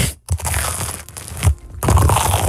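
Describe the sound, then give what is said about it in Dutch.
Loud, close crunching as someone bites into a cheese sandwich right at the microphone: a dense, rough run of crushing and tearing noises with short dips between bites. “Sorry. Mijn microfoon ging in mijn broodje. Dan hoor je ze heel hard.”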